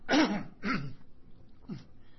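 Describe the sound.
Throat clearing in three rough, throaty bursts: two strong ones close together, then a shorter, fainter one after a pause. No speech is heard.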